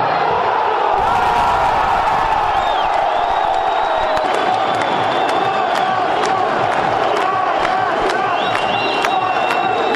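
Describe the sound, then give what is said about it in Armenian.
Armenian football fans loudly cheering and whooping near the stadium and in nearby streets after the national team's 4-0 win over Andorra, a dense continuous roar of voices with scattered shouts throughout. “Խաղից հետո մարզադաշտին կից տարածքում, իսկ հետո նաև հարակից փողոցներում հայաստանցի ֆուտբոլասերները տոնում էին ազգային հավաքականի հաղթանակը”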